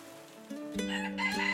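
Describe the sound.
A rooster crows in a village on a morning after rain, the call rising in brightness and holding a strained, raspy tone before trailing off, fairly faint and heard alone without any voices.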